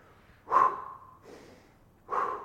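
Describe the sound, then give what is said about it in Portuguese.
Quick, sharp intakes of breath are taken mid-sentence, with no words between them: a loud snort-like gasp, a softer breath, then another sharp inhale, spaced under a second apart. “eu tive que respirar agora rapidinho, desculpa”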